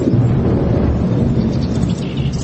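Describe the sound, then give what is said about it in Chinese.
Muffled thunder rolls outside a palace hall, a deep continuous rumble that stays heavy and steady throughout with no sharp cracks. “殿外隐约起了一两声闷雷声，潮湿的意味更盛”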